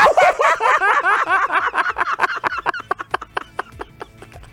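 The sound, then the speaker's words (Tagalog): A voice imitates the sound of a crab with a rapid, clucking, chattering run of syllables that slowly spreads into separate clicks and grows fainter. “Ganyan yung tunog na alimasag.”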